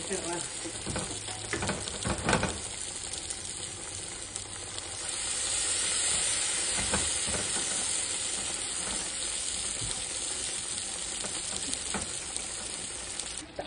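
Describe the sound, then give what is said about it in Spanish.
Food fries in hot oil until crisp, giving off a continuous crackling sizzle with a constant hiss that swells slightly through the middle and holds at a moderate, even level. “Ya que estén tostaditas, se voltean y ya que estén fritas, se sacan, se escurren y se ponen también en el papel. Estas sí absorben mucho aceite.”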